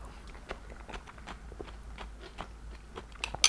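Someone bites into and chews pickled gherkins, making many faint, crisp, irregular crunches.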